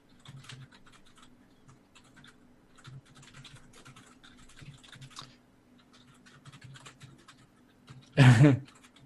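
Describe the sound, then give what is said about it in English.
Computer keyboard typing: many light, rapid key clicks tapping along in an uneven rhythm, fairly faint throughout, with a brief, much louder burst of noise near the end. “Typing, typing, typing. Everybody's typing.”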